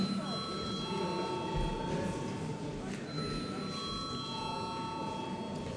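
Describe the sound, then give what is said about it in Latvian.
A parliament chamber bell rings as a steady, sustained electric tone for the whole stretch over a noisy background, without clear breaks or changes in pitch. “lūdzu zvanu.”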